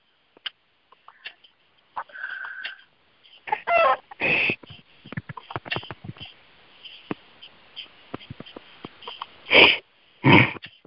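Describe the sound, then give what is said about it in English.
Chickens cluck in many short, scattered bursts, with a few louder, longer squawks rising among them and fainter chirps between. “Wow, I've got some chickens in there.”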